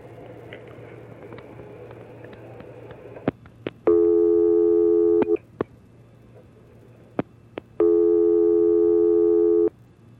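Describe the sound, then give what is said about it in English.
A telephone busy signal sounds as two long, steady electronic tone bursts separated by a gap, with sharp clicks scattered before and between them. “Sounds like they're busy.”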